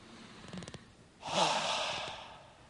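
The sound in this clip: A deep breath during a prayer session: faint short breathing sounds, then one long, airy, fairly loud exhale that gradually fades.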